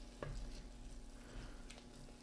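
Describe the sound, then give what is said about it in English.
Sizzling and stirring as red wine goes into a pot of venison Cajun piquant over high heat: a sudden hiss breaks in near the start, then a soft, uneven crackle and scrape continues quietly. “All right, red wine going in. I like the smell of red wine when cooking.”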